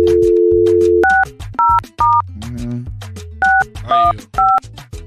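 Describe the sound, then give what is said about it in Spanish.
A dial tone sounds as a telephone call is placed, followed by six short touch-tone key beeps in an uneven rhythm, all over a low, steady background bed. “Está repicando”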